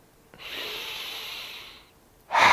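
Slow, relaxed breathing exercise: one long, steady breath lasts more than a second at even strength, fades out, and then a louder breath begins sharply at the end.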